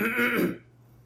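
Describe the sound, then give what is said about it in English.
A man clears his throat once, a short, fairly quiet rasping burst lasting about half a second that then drops away to near silence. “And he clears his throat.”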